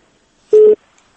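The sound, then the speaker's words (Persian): A telephone busy tone after a dropped call: one loud, short beep at a steady pitch, followed by near silence. “تلفن متاسفانه قطع شو.”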